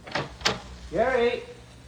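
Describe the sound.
A door opens as someone steps out, giving a couple of sharp clicks close together, followed by a brief voice.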